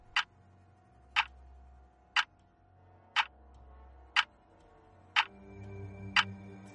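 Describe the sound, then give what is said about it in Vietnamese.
Clock ticking in a room: seven sharp, evenly spaced ticks about a second apart, faint and dry, with a low hum underneath. “Kim đồng hồ bên trong căn phòng khẽ chuyển động.”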